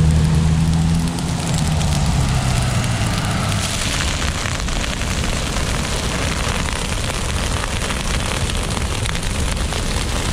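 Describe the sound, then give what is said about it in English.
Flames of a controlled vegetation burn in Upper Bidwell Park, Chico: a loud, dense, continuous crackling roar, constant in level, with a low humming tone fading out during the first couple of seconds. “Mash was on the scene for the burn, and his segment begins with the sound of the flames and a question posed to Chico Fire Department Captain Mike”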